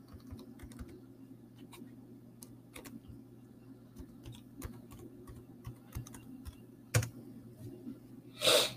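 Someone types an email on a computer keyboard: many quick, irregular keystroke clicks, faint over a steady low hum, with a louder clatter near the end.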